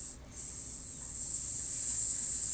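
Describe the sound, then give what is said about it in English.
A voice imitates the sizzle of something burning into a hand: one steady, continuous hiss with a bright, sharp edge that holds its level throughout. “sizzle as it burns into your hand”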